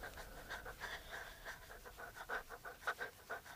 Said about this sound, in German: Füße hasten, Blätter knacken, Atem keucht.